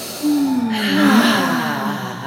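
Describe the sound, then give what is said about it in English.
A deep breath in through the nose and out through the mouth, heard alone as a long, audible, breathy sigh with a voiced tone that slowly falls. “let's take a deep inhale through our nose, let it fall away through our mouth.”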